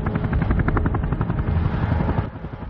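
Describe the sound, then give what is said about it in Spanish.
Helicopter flying along a border wall near Ciudad Juárez, its loud rotor chop pulsing steadily over a deep engine roar, with no voices. “El helicóptero se eleva”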